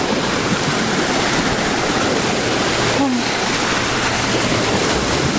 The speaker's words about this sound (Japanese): 波が、うわー、来たー、波が来た